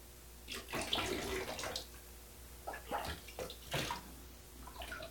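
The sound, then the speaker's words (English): Water splashing and trickling as someone's back is washed, with soft, uneven swishes and pours that come in bursts over a faint, continuous wash. “I always loved having my back washed. It's a little scratchy.”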